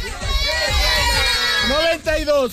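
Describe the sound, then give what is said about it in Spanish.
A crowd that includes children's voices shouts a war cry together. The shouting is loud and continuous, with a brief dip near the end before the voices surge again. “nosotros nos despedimos con el grito de guerra y aquí suena”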